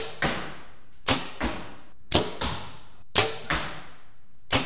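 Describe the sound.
Arrows shot from a 60-pound bow during target practice strike the target in a series of sharp, loud whacks, each dying away quickly, with louder impacts alternating with softer thuds.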